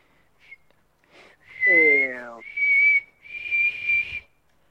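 A person whistles a few clear, high notes. Short bursts give way to longer held tones that waver slightly, and one note slides downward.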